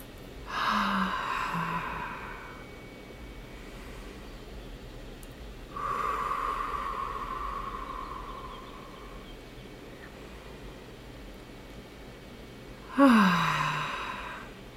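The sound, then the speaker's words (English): Deep breathing during a guided relaxation exercise: three slow, airy breaths, each a long soft hiss, separated by quiet pauses, with the last breath the sharpest. “let's take in a couple nice deep breaths here.”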